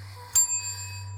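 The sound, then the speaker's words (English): A small bell is struck once, a bright ding that rings on and slowly fades over a steady low hum. “When I ring this bell”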